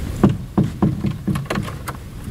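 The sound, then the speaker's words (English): Something being locked: a series of dull clunks and clicks at irregular intervals, moderately quiet. “I'll just lock this.”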